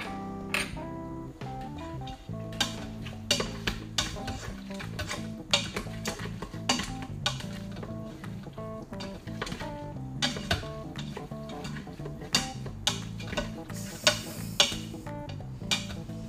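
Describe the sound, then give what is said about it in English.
Food is tossed and stirred in a pan, making many irregular clinks, scrapes and knocks of a utensil against the metal, with occasional louder taps over a continuous background. “And then I will toss this for one more minute or two, and then we can try this out.”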